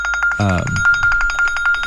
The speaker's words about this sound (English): Well, hey, that's Carl calling us now. So. I have to buy lunch today, I guess, and my phone went off.